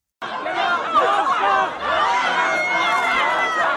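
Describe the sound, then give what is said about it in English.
Crowd of hundreds gathered inside and outside a city hall for a Monday night meeting, a steady babble of many overlapping voices with scattered laughter, continuous and moderately loud throughout. “What you're hearing there are hundreds of people who are gathered outside and inside at Richmond City Hall Monday night to speak against and for a motion to consider a supervised drug consumption site.”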